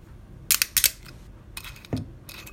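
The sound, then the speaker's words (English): A screw-top wine bottle is twisted open: two short clusters of sharp crackling clicks as the metal cap's seal breaks, then a brief low scrape, fairly faint against a quiet background. “There's nothing else for me to do now apart from to open it. It's a screw top.”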